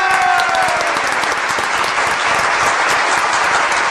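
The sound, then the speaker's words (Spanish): Dense, loud applause and clapping from an audience runs unbroken through the whole clip, with no voices rising above it. “un aplauso para Carlos!”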